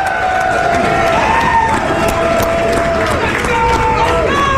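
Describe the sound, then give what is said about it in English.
A large arena crowd of about 15,000 people roars steadily. Sustained shouts and cheers ride over dense babble, staying loud and even throughout. “You know what's shocking? That we got 15,000 people in here today. That's what it sounds like.”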